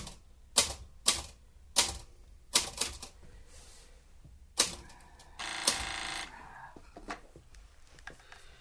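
Mechanical typewriter keys clack while a sentence is typed out: a few sharp, irregularly spaced strikes, then a longer rattling burst and one more lone keystroke, with no voices.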